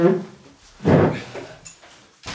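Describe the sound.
A chair is carried back into an office with one heavy, muffled bump and clatter, followed by a few fainter knocks and a sharp click at the very end.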